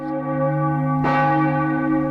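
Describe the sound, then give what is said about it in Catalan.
Church bells ring out chimes, with sustained bright overtones and one fresh, clear strike partway through that rings on loudly. “Ai, les campanades.”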